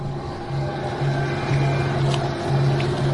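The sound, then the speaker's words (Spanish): A boat motor runs in shallow water with a steady low drone and a throbbing hum that pulses on and off at a regular pace. “Estamos acercándonos, así que debemos tener cuidado con las luces. Tal vez deberíamos apagar el motor.”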